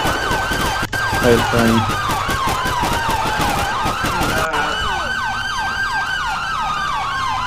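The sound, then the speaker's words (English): Emergency vehicle sirens from a police video game wail in fast, repeating up-and-down sweeps, loud and continuous, with a sharp click where the siren pattern switches partway through. “Sirens on.”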